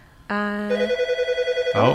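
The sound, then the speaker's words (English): A telephone rings with a rapid, warbling electronic trill. It opens on a sustained tone, then pulses quickly at a steady rate, and a voice cuts in briefly at the end. “We've got a phone call.”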